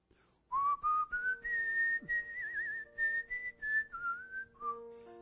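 A person whistles a lively, wavering tune of many quick notes that slide and step between pitches. The whistling is clear and fairly soft, with no talk over it.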